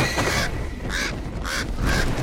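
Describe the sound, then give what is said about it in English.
A crow flies past with four harsh, rasping caws: one longer call followed by three shorter ones at a fairly even pace, over a steady background hiss. “He flinches as a crow flies past him.”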